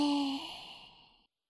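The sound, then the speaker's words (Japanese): A person lets out a slow, audible breath, the exhale starting with a soft voiced edge and then tapering steadily into silence. “で、吐いて。”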